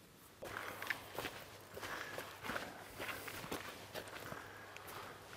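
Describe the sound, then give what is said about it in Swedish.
Footsteps walking at a steady pace, many even, moderately loud steps in an unbroken run, with a faint low hum beneath them and no voices. “Då kanske vi skulle ta en liten promenad och titta på det på plats nu när vi ändå är här.”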